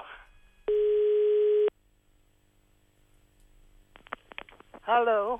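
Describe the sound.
A steady telephone dial tone plays for about a second while calling the neighbours, followed by a few quick tone pulses and then a brief voice.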